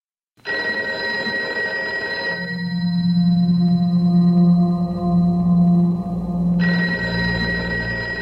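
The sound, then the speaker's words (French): A telephone bell rings at the armed forces ministry in Paris at 3 a.m., 1968, a loud, sustained ringing that carries on for about eight seconds, with a low humming tone joining in the middle stretch. “À 3h du matin, à Paris, le téléphone sonne au ministère des Armées.”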